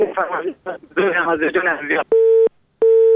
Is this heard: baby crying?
no